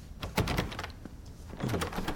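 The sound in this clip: A stuck door is tried and forced open: a few rough bursts of rattling, scraping and creaking strain against a steady noisy background.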